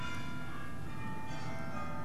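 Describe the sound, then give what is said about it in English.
A closing bell rings with steady, sustained metallic overtones that hum evenly for about two seconds, quiet and alone with no talk. “So that's my closing bell. So, sorry about that.”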